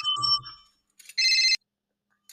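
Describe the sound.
A mobile phone rings with an incoming call: bright electronic ringtone bursts, first a fuller chime, then a sustained high trill, separated by short silences, with another burst starting at the end.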